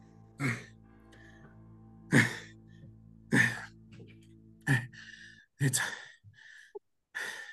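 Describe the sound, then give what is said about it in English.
Heavy, sighing breaths from a person out of breath after climbing stairs: a series of loud exhales and gasps separated by quiet pauses, with a faint steady hum beneath and no talk. “Why are you out of breath? Wow, he was really exhausted. Those stairs took a lot out of me.”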